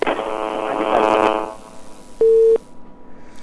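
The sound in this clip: A telephone line drops on a caller: a harsh, buzzy crackle fades, then a single steady beep of the line tone is heard before quiet.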